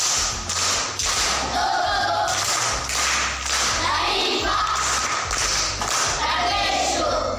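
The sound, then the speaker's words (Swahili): Classroom clapping for a pupil during a geography lesson comes as rhythmic bursts of hand claps and thuds, repeating in a steady pattern, with voices mixed in. “Amepatia, lakini namrekebisha kidogo. Ramani ni mchoro unaowakilisha taarifa zilizopo katika uso wa dunia kwa kutumia skeli maalum. Makofi kwa mjomba.”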